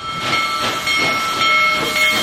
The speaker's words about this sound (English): One of the biggest steam locomotives ever built, back on the tracks, rumbling west under its own steam.